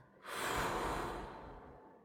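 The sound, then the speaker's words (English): A slow, deep calming breath: a soft, breathy rush swells quickly, then tapers gradually over nearly two seconds, heard on its own. “breathe three times. One, two,”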